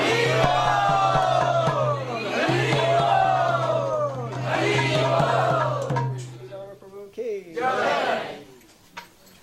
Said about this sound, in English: So please, if we can, very tumultuously welcome Shruti Dhammapur by chanting very loudly three Hari Bols.